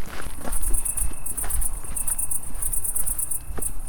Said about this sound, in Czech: Teď od toho půlkruhového, vlastně půlkruhové terasy scházíme po několika schodech vlastně níž do zahrady Vitalový.